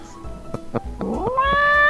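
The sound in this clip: A cat meows in a single drawn-out call that rises in pitch and then holds, growing louder toward the end.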